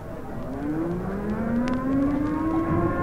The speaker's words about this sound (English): There goes the alert siren. Now, can't those civil defense guys sound that siren some other time?